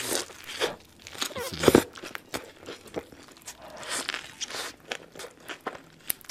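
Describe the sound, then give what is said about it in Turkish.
Someone eats something like a hamburger for an ASMR recording: many faint, irregular crunchy bites and moist chewing sounds, with scattered crackles throughout. “Şu anda bir hamburger gibi bir şey yiyor.”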